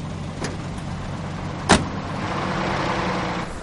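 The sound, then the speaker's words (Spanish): A car door shuts with a single sharp thud over a steady engine rumble, on a cold, snowy country road. The slam is brief and stands out once, and the motor keeps running evenly before and after it. “Ella cierra. El teniente sonríe y arranca.”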